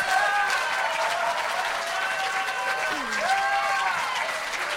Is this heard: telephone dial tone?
no